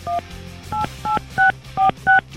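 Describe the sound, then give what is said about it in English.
Telephone dialing tones sound while a phone call is being placed: six short, clear DTMF beeps in an even sequence, each a steady two-pitch tone, with a faint low hum between them. “I'm just going to make the call. Make the call.”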